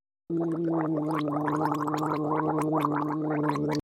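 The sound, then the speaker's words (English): Gargling by a person: a continuous wet, bubbling rattle over a steady voiced tone, starting abruptly and holding at an even, fairly loud level for about three and a half seconds before stopping suddenly. “Gargle.”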